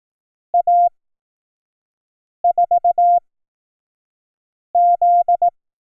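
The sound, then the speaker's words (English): Morse code tones spell out A, 4 and Z as three separate groups of short and long steady beeps at one mid pitch, alone against silence. “Did you hear Z last? That was A, 4, Z.”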